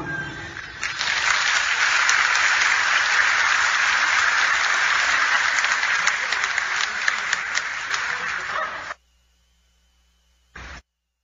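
Applause: dense, steady clapping that holds loud for about nine seconds and then cuts off abruptly into near silence, followed by one brief burst.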